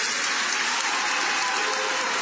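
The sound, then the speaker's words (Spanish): Applause from an audience at the close of a political speech in Uruguay: a dense, even wash of clapping that stays steady throughout, with no distinct voices. “Esta vez, al cierre y como gesto republicano, los aplausos fueron bastante más generalizados.”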